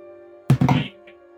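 A dice roll for an intelligence check in a tabletop role-playing game gives one short, solid thunk with a brief rattling tail over a faint steady hum, then quiet.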